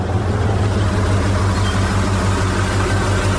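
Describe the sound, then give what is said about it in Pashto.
A lorry's engine runs with a loud, steady low rumble and a constant throb. The drone stays even and unbroken from start to finish. “یوه لاړۍ خو راغله، همدا لاړۍ ته به لاس ورکم.”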